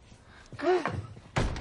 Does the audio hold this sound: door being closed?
yes

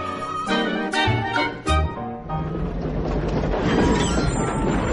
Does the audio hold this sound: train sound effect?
yes

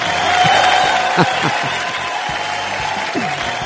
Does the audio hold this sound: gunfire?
no

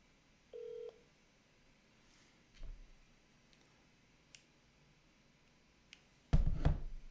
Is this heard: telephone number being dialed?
yes

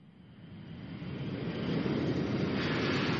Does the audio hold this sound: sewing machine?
no

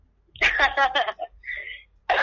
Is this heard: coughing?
yes

